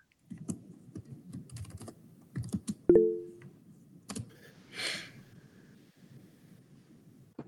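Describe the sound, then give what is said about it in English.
Typing on a computer keyboard into a chat box: irregular bursts of light, clicky keystrokes with short pauses between runs, moderately loud, and no talking. “I got to type in my little chat box here.”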